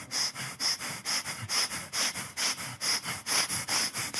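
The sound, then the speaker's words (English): Rapid, rhythmic sniffing from a person demonstrating deep breathing in through the nose during a church sermon: many short, sharp nasal inhalations in a steady quick pulse, fairly loud and alone, with no talk. “what are you doing? And I'm like, oh, I'm getting my breathing in.”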